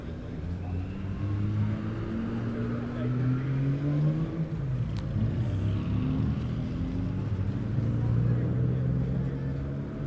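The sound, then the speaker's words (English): Engines of vintage cars rumble as a batch sets off from a street corner during a classic car run in Farnham, a steady low drone that holds at an even level for the whole stretch. “And the third batch of cars are now just forming up on the corner between Longbridge and Downing Street. The clerk of the course is just checking that everything's all right, and they're off.”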